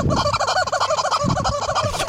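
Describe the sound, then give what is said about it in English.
Squeaky rubber chicken squawks as a horse plays with the toy: many rapid, loud, nasal honking squeals in an uneven, continuous rhythm, with thumping noises underneath. “That is a horse. That is a horse playing with a rubber chicken.”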